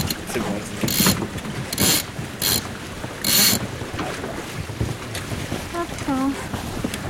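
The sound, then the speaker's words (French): A sailboat's foresail is hoisted in several short, rasping bursts of running line and gear over steady wind and water noise, with a voice briefly heard. “On envoie la voile avant.”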